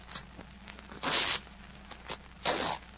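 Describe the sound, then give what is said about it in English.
Cutting open the lining of a jacket's breast pocket gives two short, rasping bursts of ripping fabric, separated by a pause and heard alone at a fairly quiet level. “Well, cut it. Cut the lining. Yes, yes, of course.”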